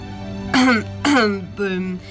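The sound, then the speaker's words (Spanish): A voice performing throat clearing for a mummy teacher standing before a blackboard: three short, loud, gravelly voiced bursts, each sliding downward in pitch, separated by brief pauses. “La momia se plantó frente al pizarrón y se aclaró la garganta.”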